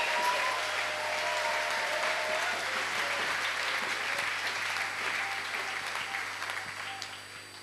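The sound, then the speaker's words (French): Congregation applause at a church praise and thanksgiving service, clapping for the Lord: a dense, steady wash of many hands that holds evenly, then thins and fades slightly toward the end. “Est-ce que nous pouvons acclamer le Seigneur? Can we clap for the Lord?”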